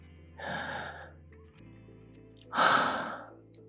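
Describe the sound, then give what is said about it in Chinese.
Deep breathing: two separate breathy rushes of air with no talk, the second louder and longer than the first. “深呼吸”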